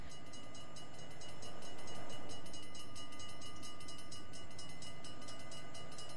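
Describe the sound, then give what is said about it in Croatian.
A train approaches the tracks at night with a steady, broad rumbling roar and a rhythmic clatter that swells slightly midway, loud and continuous throughout. “Svjetla vlaka približavala su se brzo i usporeno u isto vrijeme. Čula sam glasnu sirenu”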